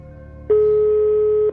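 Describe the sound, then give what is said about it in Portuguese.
A single steady telephone tone sounds while a call is placed to a home landline: one clear, mid-pitched beep lasting about a second before it cuts off. “Você pode ligar pro telefone fixo da sua casa. Tá. Eu vou ligar então.”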